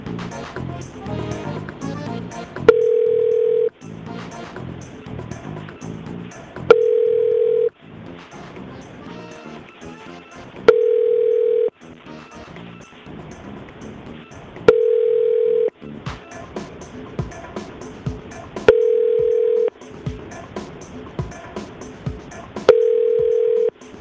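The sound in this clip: An outgoing phone call to a boat house plays a ringback tone. Six steady, identical tone bursts repeat at even intervals of about four seconds, with busier background sound continuing between them.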